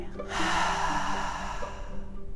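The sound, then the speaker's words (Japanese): Vigorous breathing in a calming exercise for anger, a forceful exhale through the mouth and a deep inhale, heard as a loud, sustained airy rush with no talk. “思いっきり口から吐いて思いっきり吸って。思いっきり吐き切って”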